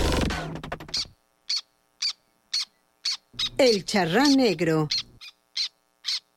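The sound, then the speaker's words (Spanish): Repeated short, sharp, high-pitched calls of a black tern, spaced in a loose, regular series and fairly loud, with a person talking at the start. “Vamos al ave de la semana, que es el charrán negro, un ave que nunca habíamos visto en la Comarca Lagunera”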